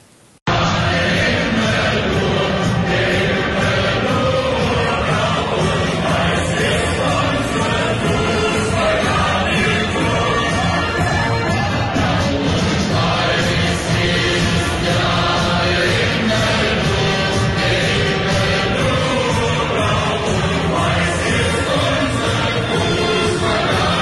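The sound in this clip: Stadium crowd of home fans in Hamburg greeting visiting Schalke supporters at a football match, a dense, loud wall of massed voices chanting and singing without pause for the entire stretch.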